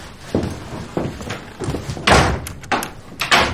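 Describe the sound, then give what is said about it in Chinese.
A door being shut and locked, heard as several heavy thuds and clunks of varying loudness, with a sharper, louder bang near the middle and short knocking impacts afterward. “你锁门干啥呀？”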